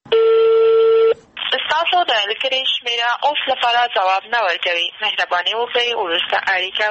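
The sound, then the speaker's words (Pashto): A telephone tone sounds as the number of the governor of Maidan Wardak province is called: one steady, loud, mid-pitched beep lasting about a second, followed by someone speaking. “وروسته مو بیا هم تر شل واره زیاته اړیکه ونیوله خو ځواب یې ورنه کړ. دا د میدان وردګو ولایت د والي جنرال مظفر الدین یمین شمیره ده.”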